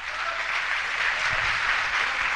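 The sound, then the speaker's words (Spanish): Church audience applauding for Christ, a dense, even patter of clapping that stays level throughout the short stretch. “El aplauso para Cristo.”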